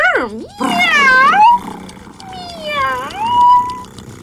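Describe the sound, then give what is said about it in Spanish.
A human voice imitates a cat meowing, giving a few drawn-out, wavering meows whose pitch slides up and down, loud and alone. “¡Miau! ¡Miau! ¡Ay, miau! ¡Un gato!”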